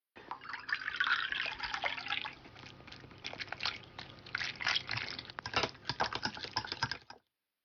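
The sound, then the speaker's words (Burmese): Water, 100 ml of it, is poured into flour for a dough, making a faint, crackling patter of many small spattering clicks and trickles that comes in uneven bursts, then stops abruptly. “ဂျုံမုတ်ထဲကိုရေ 100ml ထည့်ရမှာပါ”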